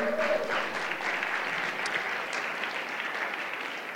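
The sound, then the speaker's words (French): Applause from an audience at a church prayer service in Québec, dense continuous clapping held at an even, fairly loud level for the whole clip. “On peut acclamer le roi”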